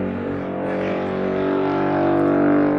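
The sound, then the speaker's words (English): A jet ski or motorbike drones in the distance with a continuous, steady engine hum that swells slightly in loudness toward the end. “a jet ski, motorbike in the distance there.”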